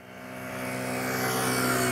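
A car swerving through a slalom at 40 km/h without braking, as an evasive maneuver in a driving lesson, gives a steady harmonic engine hum over road noise that grows gradually louder.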